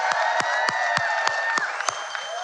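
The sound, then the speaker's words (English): A church audience claps in a steady rhythm of about seven beats while sharp, sliding whistles and cheers ring out over the applause. “Some surprise whistlers in the building.”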